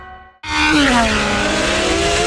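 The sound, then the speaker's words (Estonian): A loud racing car engine roars in abruptly after a short near-silence at a motor-racing event on a race circuit in Pärnu, Estonia. The roar stays sustained and powerful, with a prominent tone that slides gradually downward in pitch. “Augustil kohtume taas Pärnus Porsche Ringrajal, kus kihutavad regiooni kiiremad autod ja mootorrattad.”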